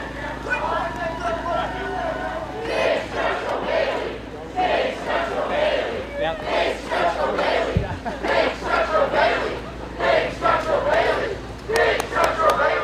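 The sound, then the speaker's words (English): Supporters at an Elizabeth Warren political rally cheer as she approaches a giant inflatable of her dog. The crowd noise is loud and continuous, rising into rhythmic bursts of shouting and chanting. “those are the cheers of Elizabeth Warren's followers, the Warren Commission to some, as she approached a gigantic inflatable version of her dog, Bailey.”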